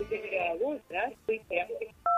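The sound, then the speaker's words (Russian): A short, dual-pitched telephone line tone during a radio call-in, sounding loud at the very end after a stretch of talk. “Ну вот, к сожалению, либо испугались, либо телефонный звоночек сорвался.”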